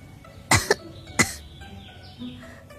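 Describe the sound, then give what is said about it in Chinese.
A woman's dry cough as she clutches her chest: a few short, breathy bursts close together, then quiet. “扶着胸口干咳了几声，仿若黛玉附体”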